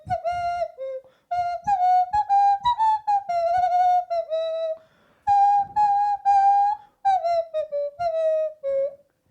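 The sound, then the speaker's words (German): A nose flute plays a melody in short phrases of clear, breathy, whistle-like tones in a mid-high register, each phrase separated by brief pauses, loud and alone. “Der Mann kann alles. Der kann alles. Der kann sogar eine Nasenflöte spielen. Und zwar jeden Ton getroffen.”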